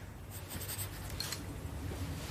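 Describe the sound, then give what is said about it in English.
Faint, continuous scratching of writing on paper as a label is added to a drawing in a sketchbook, soft strokes running steadily throughout. “He labels a drawing of a man in his sketchbook with the name Jack.”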